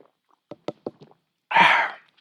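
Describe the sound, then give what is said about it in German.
A bottle of Tegernseer Hell lager is opened: a few small clicks and taps, then a short, loud burst of hissing gas that fades out. “Und ich habe das beste Lager der Gegend, das ist das sogenannte Tegernseer Hell. Das öffne ich jetzt. Und jetzt trinke ich auch davon.”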